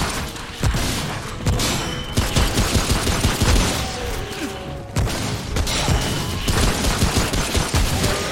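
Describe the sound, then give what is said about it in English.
Video game gunfire: loud, dense bursts of shots crack and rattle almost without pause. Sharp reports pile on one another throughout, with brief dips between volleys. “Shoot him in the legs. Oh, God. That's insanity. Oh, shoot him in the back.”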